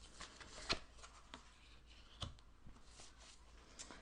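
Tarot cards are shuffled very quietly, a soft continuous riffling and rubbing broken by a few sharper snaps of cards against each other.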